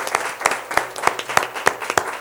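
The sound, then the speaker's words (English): A church audience claps hands in praise during a worship service, many hands striking together in a steady, even beat of sharp, fairly loud claps, with no other sound standing out. “Let's give the Lord a hand clap of praise.”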